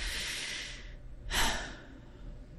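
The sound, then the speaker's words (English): A deep, lung-filling breath: a long, soft, airy rush of air lasting about a second, a short pause, then a shorter and stronger breath, alone with no talk. “We can start right now by taking a deep, lung-filling breath. Just one. Go ahead, do it now.”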